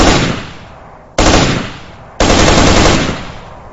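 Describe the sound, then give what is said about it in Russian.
Automatic rifle gunfire in three loud bursts, each starting with a sharp attack and fading into a decaying roar, with the last burst lasting longest. “Я взял автомат и добавил огня.”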